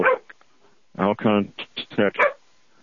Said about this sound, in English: If you heard that dog barking, not to mind, it was not a big issue.